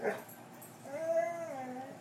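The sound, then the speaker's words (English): A dog gives a single faint almost-bark, a drawn-out tonal yowl that bends up and then sinks, following a short soft noise at the start. “That was almost a bark.”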